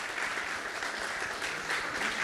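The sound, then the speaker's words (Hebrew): Audience applause for a rabbi, a dense, even wash of clapping that holds steady throughout. “הרב יזכה, כפיים לרב, מגיע לו כפיים לרב, כן.”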